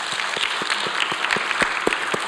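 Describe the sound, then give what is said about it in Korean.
A church audience claps together in a steady, rhythmic beat, with many sharp, even claps repeating at a quick pace and no talking over them. “우리 한번 박수 합시다.”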